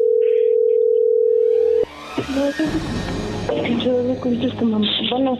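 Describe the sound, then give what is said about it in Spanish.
A steady single-pitch telephone dial tone sounds while a call is placed. It holds for under two seconds, cuts off abruptly, and voices then talk over line noise. “Le estamos marcando otra vez”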